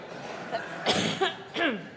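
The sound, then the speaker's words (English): A few short coughs from a church audience coughing together on cue during a service, scattered bursts with throaty, partly voiced sounds mixed in. “Let's all have a good cough now.”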